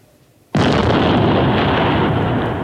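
A hand grenade explodes: a sudden, loud blast cuts in after a brief quiet and becomes a dense, roaring rumble that holds steady and fades only slightly. No voices are heard.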